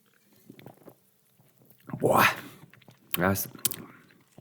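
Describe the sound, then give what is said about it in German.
A gulp of a drink taken during a tasting, with quiet slurping and swallowing noises followed by a couple of short breathy bursts. “Ja, ja, komm, wir knüppeln uns mal so einen Schluck rein.”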